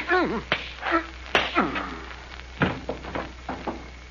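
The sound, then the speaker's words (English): A bare-handed punch in a fight lands as a few sharp smacking thuds mixed with male grunts and voices. “Hollister's on the floor. What did you hit him with? My hands.”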